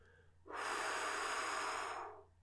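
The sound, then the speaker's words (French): A long, steady exhalation pushing out the remaining air after singing an 'ah' vowel in a vocal breathing exercise, a breathy airy rush that starts abruptly, holds for well over a second and fades away at the end. “Ah. expire l'air qui reste.”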